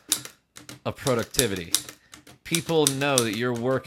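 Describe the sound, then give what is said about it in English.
Typewriter keys strike in sharp, irregular clacks under a voice that talks over them, with the keystrokes punching through the speech. “The typewriter is the marching beat of productivity and creativity, right? The smack of the keys.”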